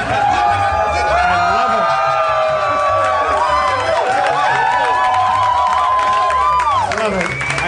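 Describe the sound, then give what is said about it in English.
A live crowd at a comedy show in a theater cheers, whoops and claps loudly and continuously, with excited voices rising and falling through the noise. “Please welcome to the stage the mayor of Harmontown, Mr. Dan Harmon. Thank you. What a crowd.”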